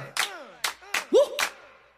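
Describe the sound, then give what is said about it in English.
Four sharp, separate claps in a slow, even rhythm, with a short rising vocal whoop between the third and fourth. “Everybody clap it up like,”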